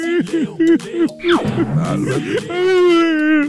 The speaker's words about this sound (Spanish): No llores, por favor, no me moje el piso.